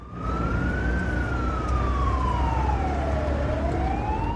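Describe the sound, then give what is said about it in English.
Police car siren wailing as the car follows a speeding ambulance: one loud, continuous tone that rises, falls slowly, then climbs again, over a steady low engine rumble. “G and Vera are holding hands in the back of a police car as it follows the speeding ambulance”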